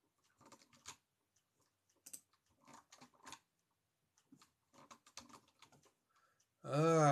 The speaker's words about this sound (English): I'm going to just type it in.